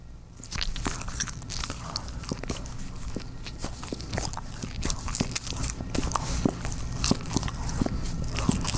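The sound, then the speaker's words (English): Someone biting and chewing a mini bagel: many crisp crunches and chews in a steady, uneven rhythm, with no other sound over them. “He likes the sound of me eating a mini bagel.”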